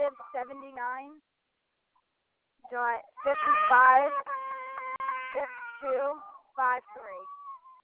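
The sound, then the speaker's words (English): Small vocal noises from a baby: a few short, high whimpers and coos, then a brief silence and a longer run of thin, wavering cries that trail into a soft fading tone. “The baby was making a little noise.”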